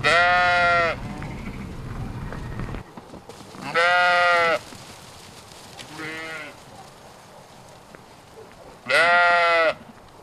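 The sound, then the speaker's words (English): Shaggy, self-shedding sheep bleat on a farm: three loud, wavering, nasal bleats spaced several seconds apart, with a shorter, fainter bleat between the last two, over a steady background hiss. “they're a bit shaggier, these sheep, than I expected.”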